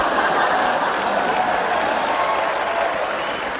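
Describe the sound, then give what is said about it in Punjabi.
A comedy show audience applauds with dense, steady clapping that forms a continuous wash of noise. It stays fairly loud and even from start to finish, with no talk over it. “ਉਹਨਾਂ ਵੀ ਤਾੜੀਆਂ ਮਾਰੀਆਂ ਨੇ”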